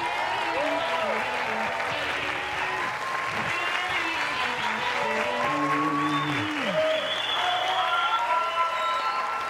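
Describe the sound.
Sustained audience applause for a magician's act at a show, dense and steady throughout, with voices and tonal sounds carrying over the clapping.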